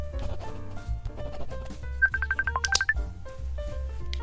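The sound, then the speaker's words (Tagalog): A telephone rings with an incoming call as a melodic electronic ringtone, a quick run of bright beeping notes with a cluster of faster high tones in the middle. “Oh, si Kenneth tumatawag na naman. Sagutin ko na nga.”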